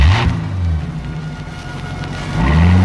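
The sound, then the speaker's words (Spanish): A police patrol car's engine as the car sets off, a low steady motor hum that rises in pitch at the start and again near the end as it accelerates. “El chofer del autopatrulla los mira de reojo. Ya tiene instrucciones y de inmediato pone el vehículo en movimiento.”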